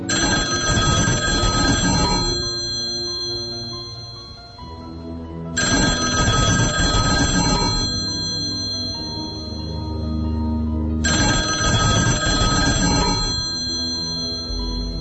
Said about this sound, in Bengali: হলঘরে phone বাজছে,